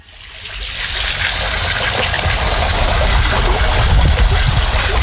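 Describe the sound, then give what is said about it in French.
Water gushes from a toy water dragon as a loud, continuous rushing spray with a low rumbling undertone, holding steady after a quick start. “C'est un dragon d'eau, c'est pour ça qu'il crache de l'eau.”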